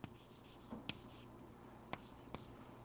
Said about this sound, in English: let's just write down some formulae for,